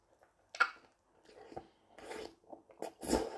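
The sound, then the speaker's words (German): One big crisp bite into a dish of fresh leaf spinach with cooked-down minced meat, followed by several soft, wet chewing and crunching sounds, fairly quiet and without talk. “So, dann beiße ich nochmal rein.”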